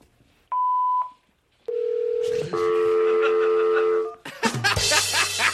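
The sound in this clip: Telephone tones from a call placed as a sound effect: a short steady beep, then a sustained lower tone, then a layered chord of tones, ending in a low buzzing drone with a noisy burst.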